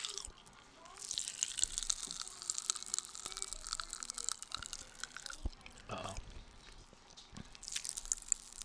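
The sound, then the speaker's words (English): Someone chews a red Starburst candy, making faint, sticky, wet mouth sounds with many soft smacks and clicks spread throughout. “I made a huge mistake of putting the Starburst in my fucking mouth. Hold on, hold on. Uh oh. Are you gonna be able to hear him? ASMR.”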